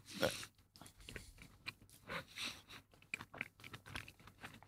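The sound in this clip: Someone bites into and chews a blood orange flavoured cookie, making quiet, repeated crunching bites in an uneven rhythm.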